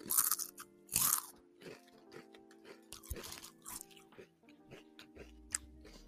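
Crunching of herb-flavoured Lay's potato chips being chewed, many crisp bites and chews in an irregular rhythm, fairly quiet overall.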